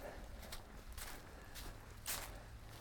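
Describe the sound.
Soft footsteps on a trail through a pine forest thick with needles, a few evenly paced, muffled crunches that stay faint over a steady background hiss.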